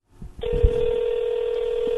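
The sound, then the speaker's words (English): A telephone tone sounds as a call is placed from a school to a mother at home; after a brief soft rustle, a single steady tone holds clearly and evenly to the end. “The sound you hear right now is me making a call from the school to my mom.”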